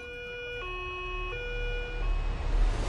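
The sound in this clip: Ambulance siren answering an emergency call for an injured person, switching between a higher and a lower steady note over road rumble that swells toward the end; fairly faint, with no voices.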